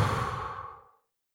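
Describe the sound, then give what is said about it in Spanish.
A deep exhale during a breathing exercise: one long, breathy outward breath that begins strong and steadily fades over about a second, then silence. “Y me pongo a respirar. Inhalo todo lo que puedo. Retengo. Y luego exhalo.”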